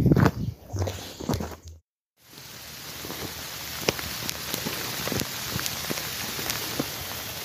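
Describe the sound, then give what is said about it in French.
Tropical rain falls steadily during a walk across Mauritius in hot, humid, windless weather, a continuous hiss scattered with sharp drop ticks; a few louder thuds and rustles come first, then a brief full silence before the rain resumes. “Et voilà, ça fait 30 minutes que je marche et je suis déjà sous la pluie tropicale.”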